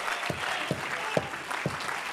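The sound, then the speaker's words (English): A church audience claps in praise, a soft, continuous wash of hand claps with stronger accents recurring roughly every half second over a low, steady hum. “Well, clap your hands unto him and bless his name.”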